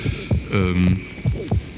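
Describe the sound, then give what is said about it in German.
An amplified human heartbeat from a film. Loud, deep thumps come in two double beats, with a droning hum between them. “ein Herzschlag, ein menschlicher Herzschlag, technisch bis zur Unerträglichkeit verstärkt.”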